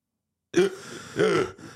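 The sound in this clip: A man's voice imitates gasping for breath in thin mountain air: two loud, raspy, strained gasps in quick succession, followed by a shorter, fainter third breath.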